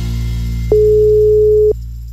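A telephone line tone sounds as a call is placed: one steady, mid-pitched beep lasting about a second over a constant low hum, with no voices.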